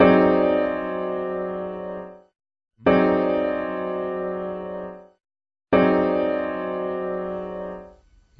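Mompou's signature chord, an inverted French sixth, rings out three times with a bell-like resonance. Each strike is full and sustained, decays slowly and ends in a brief silence before the next.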